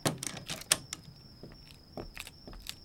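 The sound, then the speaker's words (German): A department store door is locked, giving a few sharp metallic clicks and rattles at uneven intervals, fairly faint, over a steady thin high whine. “Gerade schließt dieser Gernegroß die Kaufhaustür zu.”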